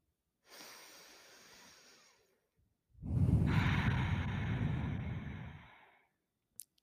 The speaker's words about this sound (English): let's take in a deep breath.